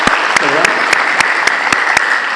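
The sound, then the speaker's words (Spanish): Audience applause at an education gathering, where colleagues from a regional school district are being honoured: steady, rhythmic clapping in near unison with a brief voice heard among it. “Un aplauso a los colegas vinculados a probablemente esta experiencia.”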